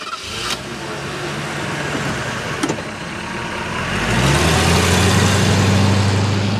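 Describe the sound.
A car drives along a road at night. Its engine keeps a steady, rumbling drone, then grows louder and deeper about two-thirds of the way through as it picks up speed. No one speaks.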